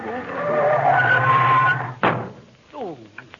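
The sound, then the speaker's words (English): A car skids under hard braking: a long, loud tire screech ends in a sharp thump, followed by a brief voice. “Well, slam your brake.”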